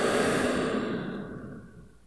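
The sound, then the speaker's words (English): A long, deep, breathy exhale during a guided deep-breathing exercise, starting fairly loud and fading gradually over about two seconds, with no talk over it. “let's just start by taking a few deep breaths together, okay? In. Out.”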